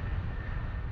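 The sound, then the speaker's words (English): An airplane engine roars during takeoff, giving a steady, dense, low-heavy rumble with a faint high whine, constant in level throughout. “That is the sound of the engine. It's a sign that we are getting ready to fly.”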